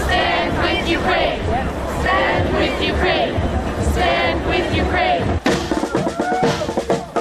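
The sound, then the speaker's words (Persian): A crowd of protesters, mostly Ukrainian Canadians, rallying in Toronto against Russia's attack on Ukraine: a loud, continuous din of massed voices shouting and chanting, with a brief dip near the end before the noise surges back. “حمله نظامی روسیه به اوکراین، هزاران نفر از ساکنین تورنتو و عمدتاً اوکراینی کانادایی ها در اعتراض به حمله نظامی روسیه و اعلام همبستگی با اوکراین دست به تجمع اعتراضی زدند.”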